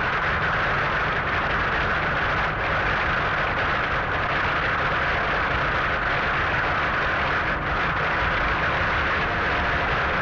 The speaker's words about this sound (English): Staging area. Tyres hot and sticky, and the engine's ready to roll.